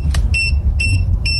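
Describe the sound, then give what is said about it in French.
A pet microchip reader used to trace the owners of cats and dogs gives three short, high electronic beeps at even intervals, each a clean bright tone over a low background rumble. “Ce que vous entendez, c'est un lecteur de puces pour retrouver les propriétaires de chats et de chiens.”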